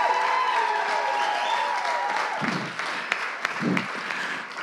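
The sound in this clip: An audience applauds to welcome a speaker at a Mother's Day church service. The clapping is loud and continuous, and sustained tonal sounds blend in during the first half before easing slightly toward the end.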